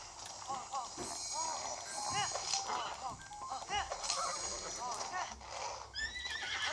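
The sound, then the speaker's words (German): A horse gallops and neighs in a video game while being ridden across a bridge. Quick clip-clop hoofbeats run without a break beneath repeated high, wavering whinnies. “Also, ich reite hier gerade noch die Kakariko-Brücke lang.”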